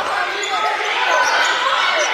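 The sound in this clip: Basketball dribbling on a court during a women's game: quick ball bounces blended into a dense wash of crowd noise, with a voice talking over them throughout.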